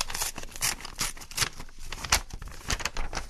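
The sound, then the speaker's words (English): Paper tearing and crinkling as a sealed envelope is ripped open, with many quick, crisp bursts of rustling that come and go in an uneven rhythm. “And they returned it to us in this sealed envelope.”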